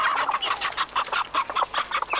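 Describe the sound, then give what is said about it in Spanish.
A hen clucks in rapid, steady bursts, a string of loud throaty clucks repeating without pause and heard alone. “Gallina con cinco... ¡Pollitos!”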